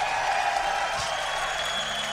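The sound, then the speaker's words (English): Applause from a live audience cheering on a band, a steady, dense wash of clapping that holds at an even level from start to finish with no clear voices standing out. “Give them a big round of applause.”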